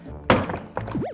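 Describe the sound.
A heavy, blunt thunk as a suitcase is smashed at its zipper lock, followed by a second, lighter knock within the next half second.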